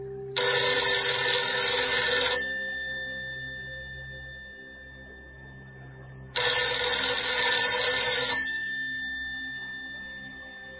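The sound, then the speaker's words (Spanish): A telephone rings for an incoming call: two bright, bell-like bursts of about two seconds each, spaced several seconds apart, with a steady tone lingering and slowly fading between and after them. No voices. “De pronto entra una llamada telefónica.”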